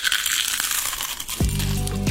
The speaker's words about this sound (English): That sound never gets old. The sound of biting into one of our legendary Clementine's onion rings.